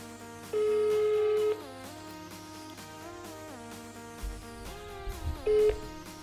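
A telephone call being placed: a long, steady electronic tone, then a shorter tone near the end, over a faint continuous tonal background with a few soft low thumps just before the final tone.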